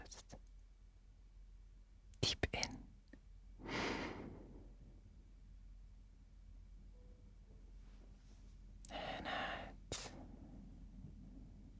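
Slow, deep breathing during a guided meditation: two long, airy breaths separated by quiet stretches, soft and unhurried, with a few faint clicks before the first.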